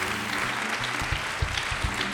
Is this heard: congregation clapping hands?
yes